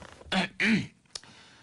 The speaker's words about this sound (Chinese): 坐下咳嗽了一声